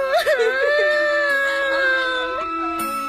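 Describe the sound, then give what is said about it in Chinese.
A child cries loudly, a wailing cry that wavers and sobs at first, then settles into a long sustained wail that sags slightly in pitch before breaking. “是赵多多，哇哇地哭叫起来。”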